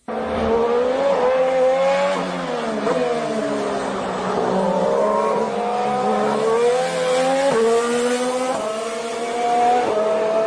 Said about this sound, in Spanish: Claro, pero es un sonido mucho más limpio. Claro, curiosamente, sí es el mismo motor de Toro Rosso, pero por el sistema de escapes suena mucho más fino, seguramente también por la electrónica.